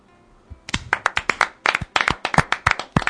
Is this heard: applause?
yes

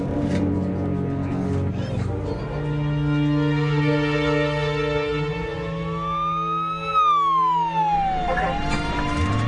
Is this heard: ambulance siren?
yes

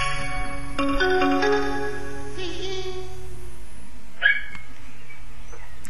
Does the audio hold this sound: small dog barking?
yes

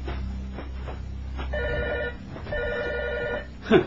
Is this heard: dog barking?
no

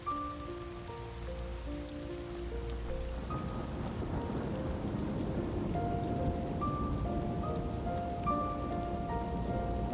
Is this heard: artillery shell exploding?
no

